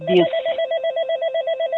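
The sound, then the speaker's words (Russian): An intercom ringing: a loud electronic ring made of a rapidly pulsing, warbling tone that repeats steadily through the short clip, with no talk. “Сейчас, извините, тут звонит интерком.”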